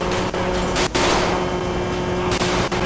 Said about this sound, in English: Oh snap, got shots. We got shots fired. Shots fired.